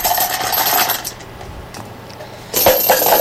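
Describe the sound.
Number tokens shaken up for a prize draw make a bright rattling clatter of many small clinks, loud at first, easing off in the middle, then surging loud again.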